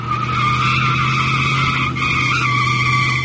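Cars driving along a road among roller skaters make a steady, unbroken engine and tire roar with a sustained whine, staying loud throughout with only a brief dip near the middle and no voices.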